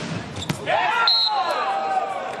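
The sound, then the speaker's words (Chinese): A sharp ball strike from Wang Bin's volleyball serve in an indoor match against France, followed by sustained arena crowd noise with some tonal sounds. “王斌来发球”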